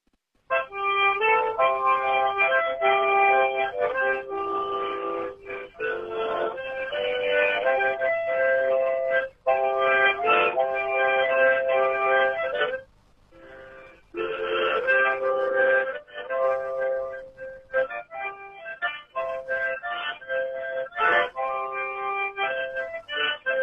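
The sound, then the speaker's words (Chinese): A seventy-something caller plays a harmonica tune over a telephone line, a continuous run of reedy chords and melody with a thin, tinny tone and brief pauses between phrases. “好，70来岁的人了啊，吹个口琴我听听。 我撂下手机就开始啊。”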